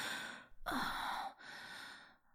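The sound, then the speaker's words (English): A deep breath sounds as soft, airy swells of breathing, with one long, strong rush of air in the middle. It is quiet and close, with no talk. “I take one more deep breath and whisper in your ear.”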